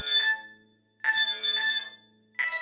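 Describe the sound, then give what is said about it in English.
A special little telephone rings in three bursts of steady, bright, bell-like tone, the last cut off at the end, with no voices. “Then, a special little telephone rang,”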